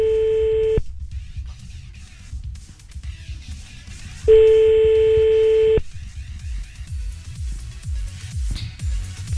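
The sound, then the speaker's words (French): Ringback tone of a phone call placed to a mobile, two long, steady mid-pitched tones separated by a long pause, heard over low background rumble. “C'est mon portable qui va sonner, ouais. Allez, on y va, on passe un coup de fil.”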